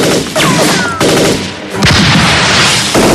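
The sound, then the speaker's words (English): Loud gunfire from a gunman shooting at people moving through woods near stables: several sharp, crashing reports punch through a dense, continuous roar of noise. “A gunman fires at them.”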